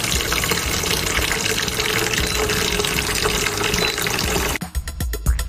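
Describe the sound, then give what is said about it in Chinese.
Water gushing loudly and steadily into a cooking pot of mushrooms for about four and a half seconds, then cutting off abruptly, followed by a few light knocks. “好，那我就来加水是吧。 好嘞， 加水。”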